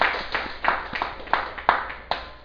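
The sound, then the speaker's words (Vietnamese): Audience applause at a Buddhist dharma talk, heard as a few scattered, sharp hand claps spaced irregularly over a thin, steady background. “Xin quý vị gửi cho một tràng pháo tay.”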